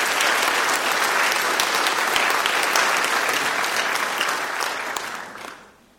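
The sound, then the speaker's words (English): Audience applause welcoming speakers at a health equity session: a dense, steady clatter of many clapping hands that holds evenly for about five seconds, then tapers off at the end. “And let's give them a welcome to class for Oregon.”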